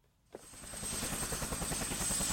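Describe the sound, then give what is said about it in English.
Bangladeshi Air Force helicopter rotor thumping in a steady, rapid rhythmic beat with a thin high turbine whine, swelling in after a brief quiet start and then holding loud and even. “And Bangladeshi Air Force helicopters like this one support international efforts.”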